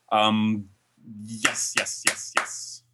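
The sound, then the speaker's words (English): Four sharp hand claps in a steady, evenly spaced rhythm follow a short stretch of talk, each one crisp and bright over a faint background hiss. “Oh, with clapping even.”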